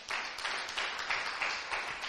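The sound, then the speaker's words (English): An audience clapping for the worship team: a steady, fairly faint patter of many hands with slight swells, holding without a break. “So, another hand clap for the worship team.”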